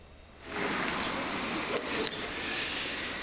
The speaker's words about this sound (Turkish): Fransa milli takım otobüsün kapıları açıldı.